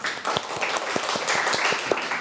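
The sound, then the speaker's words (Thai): Children applaud in a classroom with loose, uneven clapping: a scatter of separate sharp claps at irregular intervals over a moderate bed of noise, with no talking. “โอ้โหสุดยอดมากเอาปรบมือให้กองทัพหน่อย”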